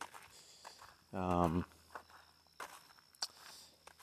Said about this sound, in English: So I'm walking along much slower than I normally am, but I'm getting hurt.